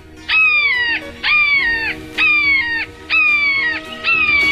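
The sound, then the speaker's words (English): A red-shouldered hawk calling outside a hearing room, five loud, evenly spaced screams, each a drawn-out, downward-slurred kee-ah with a harsh, ringing tone. “Here's the sound of the red-shouldered hawk again, outside of the hearing room.”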